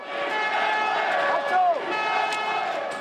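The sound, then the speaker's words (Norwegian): An angry street protest in Spain against the economic crisis: a dense, steady roar of crowd noise with sustained chanting tones running through it. “For mange nordmenn er dette lyden av den spanske krisa. Rasende spanjoler som protesterer i gatene mot nyfattigdom, arbeidsledighet og bolignød.”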